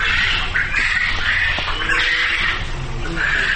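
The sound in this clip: Many birds at a poultry meat farm squawk and cackle in a dense, unbroken chorus. The racket stays loud and steady throughout, with no pauses.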